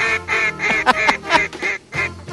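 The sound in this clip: A duck quacks in a rapid run of nasal, raspy calls, several loud quacks following one another with brief gaps, with no voices.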